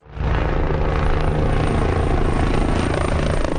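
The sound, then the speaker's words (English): Steady, loud rotor roar of a helicopter flying over wildfires and waterbombing the flames near El Tiemblo in central Spain; the heavy, pulsing drone swells in at the start, then holds at full strength throughout. “a helicopter waterbombs flames in the central town of El Tiemblo”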